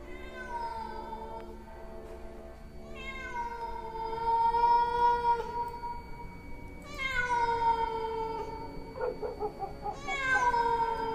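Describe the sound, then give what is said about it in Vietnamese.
A stray cat meows near a guava tree outdoors, giving a few long, drawn-out wailing cries with rich harmonics, separated by short pauses and fairly loud. “Thỉnh thoảng lẫn trong đó có tiếng con mèo hoang đâu đó bên mạn cây ổi, nó cứ kêu ngoao ngoao nghe đến giận cả người.”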